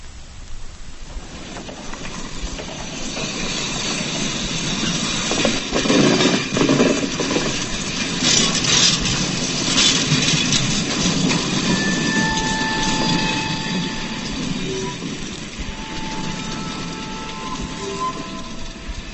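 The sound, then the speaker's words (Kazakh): A railway carriage rattles along the rails with a continuous, dense rumble and clatter that persists at an even level throughout. “Мин нәрсәдер дыңгыр-дыңгыр килүдән уянып киттем. Вагонда барабыз икән.”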